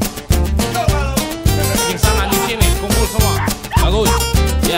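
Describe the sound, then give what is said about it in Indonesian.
Dogs bark over and over, loud yips and bow-wows coming in quick repeated bursts at a fairly regular pace, with some whimpering among them. “Semuanya anjing kumpul, semua anjing kumpul.”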